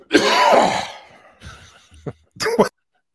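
Harsh coughing and throat clearing from someone trying to get something stuck in the throat out. A long rough burst comes first, then a short pause and a briefer, strained cough, with no words in between.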